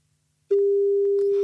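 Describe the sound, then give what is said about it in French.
A telephone line tone while a call is dialed: after half a second of quiet, a steady single-pitched tone starts abruptly and holds unbroken to the end, with faint clicks and noise near the close. “on va essayer de lui passer un petit coup de fil pour lui souhaiter un bon anniversaire. Allez, euh, lance le, le numéro”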